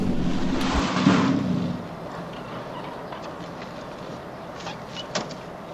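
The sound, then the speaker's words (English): A car pulls up in front of a house after driving through stone pillars. Its steady engine rumble drops away after a couple of seconds, followed by a few faint clicks and knocks as the doors open. “He drives on through two stone pillars and pulls up in front of the house. They both get out.”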